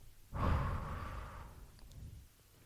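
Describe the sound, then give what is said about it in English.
A deep breath in and out, heard alone as one long, soft, sigh-like rush of air that swells quickly and then tapers away gradually. “take a deep breath, inhale, exhale.”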